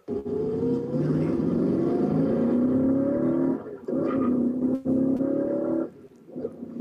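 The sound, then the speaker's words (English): A Shelby Mustang engine of the inboard-headlight generation revs and accelerates hard, its loud, sustained roar climbing in pitch in two long sweeps with brief breaks between them. “That's the way to drive it. Drive it like you stole it. Now, that was my son driving, and he wasn't into that. He wasn't punishing it at all.”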